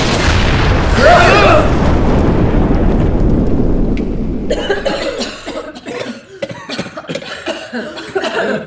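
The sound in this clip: Coughing from too much smoke: rough, loud bursts over a hissing rush during the first half, followed by a voice talking.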